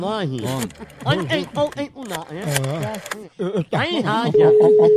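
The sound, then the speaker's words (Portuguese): People talk while a phone call is placed, then a steady single-pitched telephone tone starts near the end and holds under the voices. “Vou ligar agora pra Francisco.”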